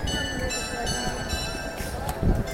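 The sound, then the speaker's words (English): Carillon bells played by a carillonneur at a church on a town street, with sustained, overlapping ringing tones at moderate loudness over a background of street noise. “And the sounds you hear is the sounds of bells, and they are actually played by a bayardir.”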